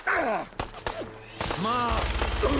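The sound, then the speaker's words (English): Minigun gunfire in a video game, breaking into a continuous, rapid, dense burst near the end, after a stretch where a person talks over quieter game sounds. “All right, let's get the minigun back out.”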